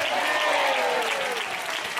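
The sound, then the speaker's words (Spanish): An audience applauds during a church service, giving a dense, steady clapping that stays loud and continuous from start to finish. “Al Señor ese aplauso, hermano.”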